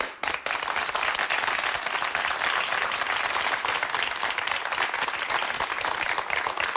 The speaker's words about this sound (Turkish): Ben de alıştım abi bu alkışlara valla.